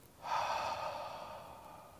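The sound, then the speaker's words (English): A voice imitates a deep breath: a single long, airy rush that swells quickly, then slowly fades over nearly two seconds. “And there, Aslan steps into the garden, and he breathes.”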